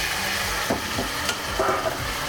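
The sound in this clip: Vegetables sautéing in a pan give a steady, loud sizzle, with a few stirring scrapes and clinks on top and no voices.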